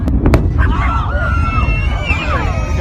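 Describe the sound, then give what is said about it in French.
Antares cargo rocket exploding seconds after liftoff from its Wallops Island launch pad. A few sharp bangs open a dense, loud rumbling roar, with onlookers' voices rising over it. “Quelques secondes seulement après le décollage, la fusée explose avec à bord une cargaison de fret à destination de la Station Spatiale Internationale.”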